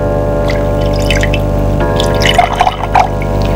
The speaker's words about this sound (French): Prends sur la table de nuit une bouteille et un verre. Remplis le verre.